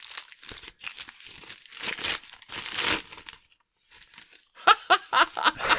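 Paper crinkles and tears as a lovingly wrapped gift with black-and-gold packaging is opened. Irregular bursts of crumpling stop for a short pause, then sharper, louder crackles follow.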